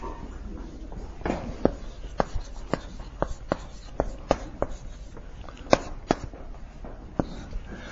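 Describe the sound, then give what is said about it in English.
Kid's chalk writes on a board in many sharp taps and short scratchy strokes, arriving at an uneven rhythm over a faint, steady background hiss. “This was very... I don't know, like a kid's chalk, so that's fun.”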